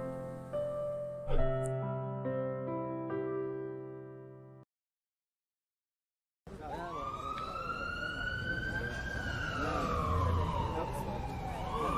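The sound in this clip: An ambulance siren in a hospital scene, a loud wailing tone that slowly rises and falls for several seconds. It begins after a few musical notes and a brief silence.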